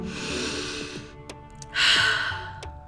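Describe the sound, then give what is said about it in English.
A single deep breath, drawn in and let out as a long, airy sigh that swells loudly near the end over a steady, low background. “So let's take a deep breath”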